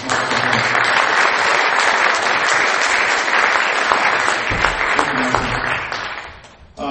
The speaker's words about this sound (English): Let's give a round of applause for